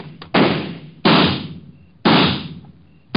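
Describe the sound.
Gunshots in a radio drama ring out as a few sharp, loud cracks spaced about a second apart, each with a long fading tail.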